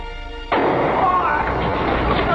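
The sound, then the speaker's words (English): A gunshot rings out during the shooting of Lee Oswald. A sudden loud blast cuts through the quiet and gives way to sustained, noisy commotion. “He's been shot. He's been shot. Lee Oswald has been shot.”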